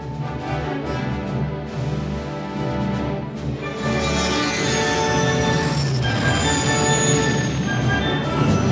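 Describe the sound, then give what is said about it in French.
A spaceship approaches with a dense, rumbling mechanical drone and tonal whine. It swells louder and brighter after a few seconds, then holds heavy and steady to the end. “Un vaisseau est en approche”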